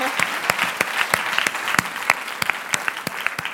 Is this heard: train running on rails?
no